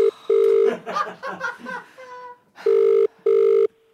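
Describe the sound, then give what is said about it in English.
A telephone ringback tone as a call goes through after dialing: steady, loud double-pulse ring tones. People talk and laugh between the first burst and the last two rings. “Is he out? We're dialing.”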